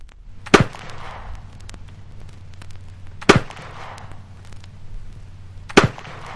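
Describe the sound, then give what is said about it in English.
Three sharp, loud gunshots from a .50 caliber Kentucky flintlock rifle loaded with 60 grains of black powder, evenly spaced a few seconds apart, each a sudden crack followed by a short fading rumble. “Let's listen now to the sound of the Kentucky rifle. This is a flintlock type, 50 caliber, using 60 grains of black powder.”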